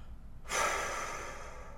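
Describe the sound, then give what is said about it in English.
A person exhales one deep, long breath, an airy rush that starts suddenly after a short quiet pause and holds steady, easing off only slightly toward the end, with no talk. “Take a deep breath in and hold that tension, hold that tightness, and then exhale out,”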